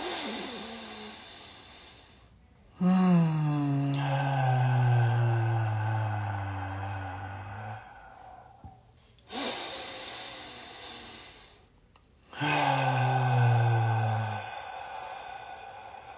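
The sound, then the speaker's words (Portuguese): Slow breathing in through the nose and out through the mouth during a paced breathing exercise, a few long airy breaths separated by short gaps. “pelo nariz e você faça uma expiração pela boca contando até 6.”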